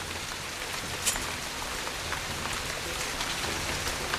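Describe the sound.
Rain falls steadily on a rain-soaked road at night, a continuous even hiss of many drops with no voices and no clear breaks.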